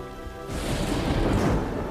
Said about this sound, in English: As rain falls on her, she scurries off and steps in a puddle.